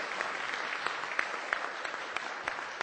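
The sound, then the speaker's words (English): Steady applause from a crowd welcoming someone at a church gathering, a dense, even patter of many hands clapping at a moderate level throughout, with no voices on top. “Why don't you give him another round of applause?”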